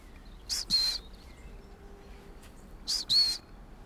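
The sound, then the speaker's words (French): Long-tailed tits give faint, high-pitched trilling calls in two short paired bursts separated by a pause of about two seconds, over a quiet background. “Là, il y a des mésanges à longue queue. La petite trille qu'on entend à peine là.”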